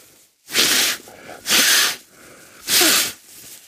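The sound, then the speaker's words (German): Three loud, breathy nasal snorts as someone forces air through a blocked, broken nose, each a harsh hissing burst separated by short pauses. “Die Nase frei zu kriegen, ist, wenn sie gebrochen ist, nicht so nicht so einfach, weil schneuzen soll man nicht. Das ist jetzt so ein freies Schnauben,”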